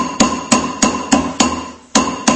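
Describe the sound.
Hammer blows shape a handmade mushurba vessel, struck by a master craftsman using old hammers his grandfathers brought from Erzurum; seven sharp, ringing strikes land in a steady rhythm, with one slightly longer pause before the last two.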